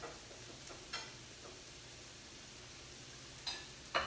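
Faint, steady sizzle of a mix of spices warming together in a pan, with a few soft clicks or taps over the hiss.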